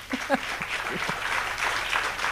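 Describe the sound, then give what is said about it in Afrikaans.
Audience applause at an award ceremony for a recipient of a rector's award and a chancellor's medal: dense, steady clapping that holds at an even level for the whole stretch. “Kom ons gee 'n applous vir dit.”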